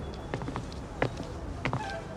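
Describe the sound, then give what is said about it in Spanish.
Footsteps of two teenagers walking to school, a few soft, irregular steps tapping over a low, steady background hum. “Luego de aquella presentación, ambos adolescentes siguen caminando hasta que llegan a la escuela.”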